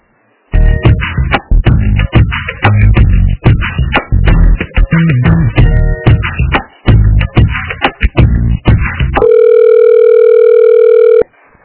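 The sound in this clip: A telephone dial tone follows a dropped call. A long run of choppy, broken electronic tones and bursts gives way to a loud, steady, continuous tone for the last two seconds before it cuts off.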